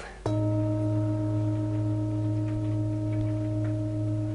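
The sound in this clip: A joint singing bowl (misa stawowa), used in sound massage around the joints, is struck once. It rings with a sustained metallic hum and layered higher overtones, the low tone gently pulsing and holding steady for about four seconds.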